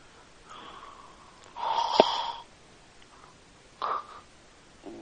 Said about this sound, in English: You sound like you're overweight because you're breathing into the phone like a lot. Why do you do that so much?